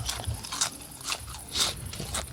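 Wet smacking and crunching from someone chewing with an open mouth, several moist bursts at a steady, unhurried pace, with no talk over them.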